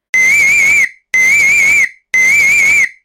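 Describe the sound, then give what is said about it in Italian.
Three long, steady whistle blasts from a handheld whistle give an emergency alarm. Each loud, shrill, high-pitched blast lasts under a second, with short even gaps between them and no other sound. “L'avviso che c'è un'emergenza in atto avviene con un fischietto. 3 fischi continui significano che c'è un'emergenza.”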